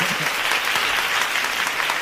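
Applause from a crowd, a dense, steady patter of many hands clapping at an even loudness for about two seconds.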